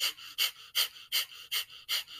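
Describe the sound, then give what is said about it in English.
Kapalabhati fire breath in yoga: a steady run of about six sharp, forceful exhales through the nose, evenly spaced and equally loud, with quiet gaps between them and no talking. “You could also do in yoga, a breath called Kapalabhati breathing. It's fire breath.”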